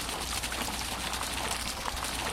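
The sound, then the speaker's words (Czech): Water babbling and splashing in the Triton fountain on Republic Square, an even, continuous rush of running water with no pauses. “Voda zurčí, my jsme ušli doslova pár kroků a ocitli jsme se na náměstí Republiky, na místě, kde v dnešní době stojí kašna Tritonu.”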